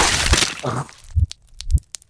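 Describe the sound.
A fist smashes into a reptilian creature's chest and rips out its heart, heard as two heavy crunching cracks, each followed by short crackling snaps.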